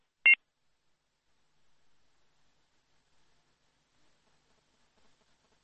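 A short electronic beep sounds as a phone call to a call-in program is cut off. It is a single brief tone burst at the start, followed by near silence.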